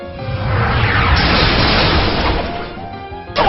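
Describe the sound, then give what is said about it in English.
The attack effect for the move Nightstick in a video game is a loud, noisy crashing burst. It holds for a couple of seconds, eases off, then ends with a sharp hit. “Nightstick, select the target. Apparition used Nightstick.”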